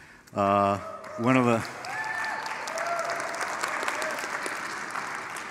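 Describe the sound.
Congregation clapping in church: a voice speaks briefly at the start, then steady, dense applause from many hands continues to the end.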